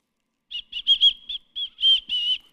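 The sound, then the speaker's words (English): A person whistles a series of short, high notes, about eight in all, steady in pitch with brief gaps between them. The last notes are held a little longer, and the whistling stands alone. “you're going to see I'm whistling. I'm making the whistling noise.”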